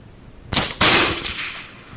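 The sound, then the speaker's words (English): A few sharp gunshot bangs from a turkey hunt. They are loud, abrupt cracks with short decays, and the last one is smaller. “Oh, gracious, you shot me again”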